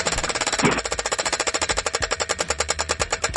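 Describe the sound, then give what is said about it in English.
A prize wheel spinning in a game, with a fast, even run of many sharp ticks that clatters on without a break. “Okay, you tell me when you want to spin the wheel. Whatever it lands on, you're going to have to play that.”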